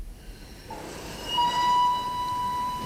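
A Vienna express train departs a station with a low rolling rumble, joined partway through by a long, steady whistle tone that holds to the end.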